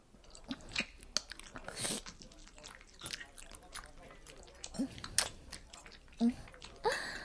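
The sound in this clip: Biting and chewing of candied hawthorn (tanghulu), with crisp crunches scattered among soft, wet mastication sounds, fairly faint and irregular in rhythm.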